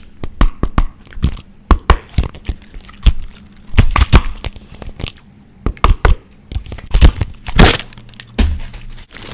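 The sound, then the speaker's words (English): Plastic egg surprise toy being cracked open: many sharp, irregular snaps, crackles and crinkles in uneven bursts, some loud and some quieter, with short pauses between them. “And it's an egg surprise toy, you idiot. I've been dying to crack it open all day. Let's go.”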